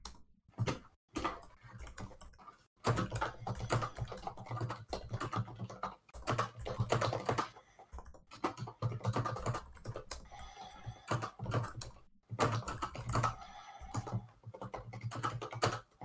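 Rapid typing on a computer keyboard: a dense, continuous clatter of key clicks in long bursts with brief pauses, and no talking.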